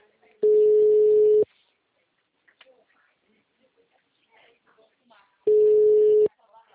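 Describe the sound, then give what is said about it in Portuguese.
A telephone busy signal on a phone call sounds as two long, steady mid-pitched tones, separated by a gap of a few seconds that holds only faint, scattered noise. “Sua chamada está sendo encaminhada para a caixa de mensagens e estará sujeita a cobranças. O número está ocupado.”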